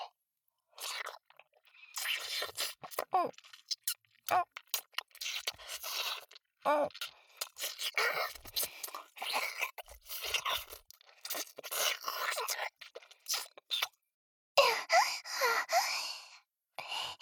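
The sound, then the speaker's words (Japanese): A voice imitating licking and sucking: many wet smacking, slurping and clicking mouth noises mixed with breathy sighs. The sounds come in irregular bursts throughout, with a couple of brief pauses. “すごいいやらしい音立てて舐めて吸ってた。真似してあげようか。”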